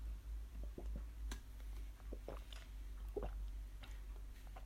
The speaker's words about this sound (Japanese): じゃあ飲み物飲んでいきます。グビッとね。